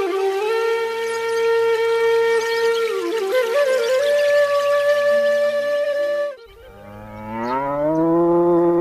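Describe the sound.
A cow lowing loudly with two calls: one long, steady moo that wavers slightly, then a shorter second moo that rises in pitch.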